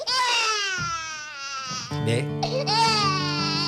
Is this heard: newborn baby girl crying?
yes